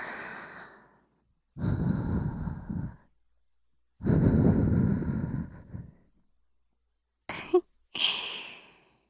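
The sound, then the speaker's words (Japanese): Gentle blowing into the ear: two long, soft, breathy exhalations, then a few shorter puffs of air near the end, all airy and quiet with no talking. “さっきより、お耳ふうふうされるの、気持ちいいでしょ？”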